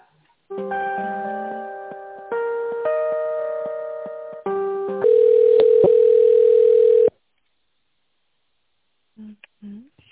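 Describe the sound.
Electronic telephone tones while an office call is being transferred: steady synthetic chords that shift pitch every couple of seconds, ending in a long buzzy tone, then silence before a brief voice.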